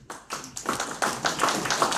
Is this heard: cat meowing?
no